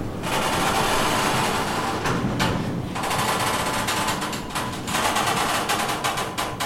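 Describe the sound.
A rolling storage rail is pulled out in a museum storeroom, making a continuous rattling, clattering rumble of metal running on a track, broken by a couple of brief pauses.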